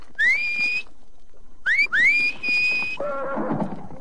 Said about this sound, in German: Bei dem Pfiff geht jedes Pferd hoch.